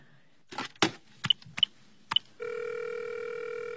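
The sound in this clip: A telephone being dialed: a few clattering handling knocks, then three short, high beeps from key presses, followed by a steady, continuous tone that holds to the end. No voices.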